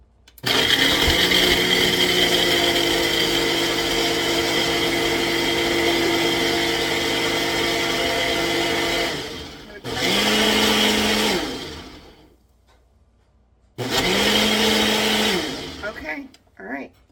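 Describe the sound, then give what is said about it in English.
A blender whirs loudly while blending a coffee drink mix, running steadily for a long stretch, then pausing before two shorter bursts of blending separated by silence. “I think I actually need to blend it some more, so hold on.”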